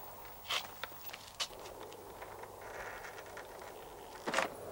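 Footsteps of someone pacing nervously with long strides on an open forecourt: a few sharp, scattered steps at irregular intervals, fairly faint over a quiet background.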